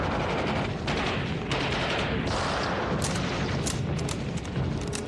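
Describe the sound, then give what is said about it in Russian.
Rifle fire in a battle against advancing tanks and infantry: aimed shots from a bolt-action rifle within a dense, continuous din of many loud bursts and booming gunfire. “Методично передергивая затвор винтовки, Звягинцев ведет прицельный огонь.”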